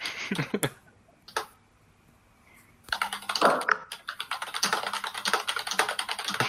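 Someone types a message on a computer keyboard: a short burst of clicks, then a quiet pause. After that comes a long stretch of rapid, dense key tapping with uneven rhythm.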